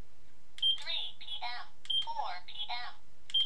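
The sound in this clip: An apple-shaped alarm clock beeps, with three short, high, faint beeps spaced evenly apart while people talk around them.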